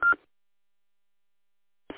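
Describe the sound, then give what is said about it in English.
A short electronic roger beep from a mobile two-way radio sounds as a single brief, steady tone at the start, followed by silence and then a short burst of sound at the end. “you got a Roger beep turned on that mobile. Keep it up there. I was wondering. I kept hearing this beep”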